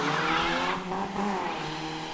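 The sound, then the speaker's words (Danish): A Volkswagen Golf 2 diesel car with a yellow plate and no rear seat drives along, its engine a steady, loud drone of low harmonic tones that waver slightly in pitch throughout. “Det er en Golf. En Golf 2. Gul plade. Så er der ingen bagsæde i. Så er det en diesel.”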